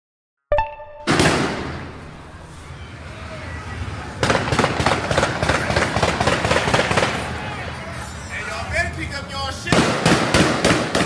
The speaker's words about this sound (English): They shooting a whole lot at the ATM, so I gotta stay a safe distance.